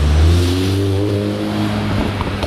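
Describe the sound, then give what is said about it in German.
Engine drone of a VW car driving past, a loud, low humming tone that holds steady and then fades toward the end, with no voices. “Ey, das ist nur ein VW. Nun mach doch nicht so eine Welle.”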